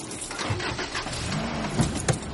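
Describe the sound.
A car engine starts and the car drives off: a continuous engine hum and rumble at moderate level, with a couple of brief louder thumps near the end and no talk.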